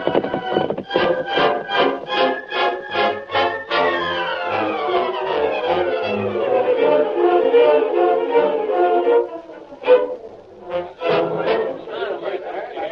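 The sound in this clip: Galloping hoofbeats of the horses Silver and Scout, a steady drumming rhythm mixed with a swelling tonal backdrop, loud throughout and with a sharp accent near the end.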